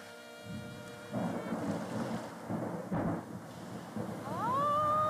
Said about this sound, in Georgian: არა, წვიმა. წვიმს, წვიმს, წვიმს.